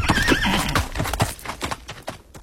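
A pony neighing in a lottery advertisement, a loud whinny followed by a run of rhythmic hoof clip-clops.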